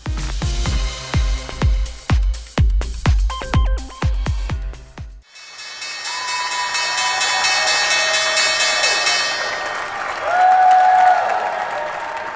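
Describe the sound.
Applause and cheering erupt on the New York Stock Exchange floor at the market opening. Loud, sharp bursts give way to a sustained, dense wash of crowd noise and raised voices.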